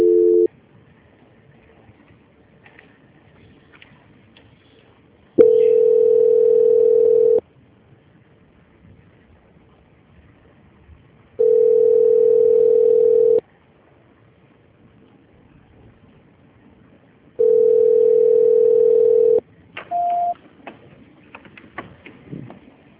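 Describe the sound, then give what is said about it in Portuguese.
A telephone line tone while a call is being transferred: loud, steady, mid-pitched tones, each about two seconds long, repeat at regular intervals with quiet line hiss between them. A short, higher beep follows at the end. “Aguarde na linha que a ligação vai ser transferida e o senhor já vai ser atendido.”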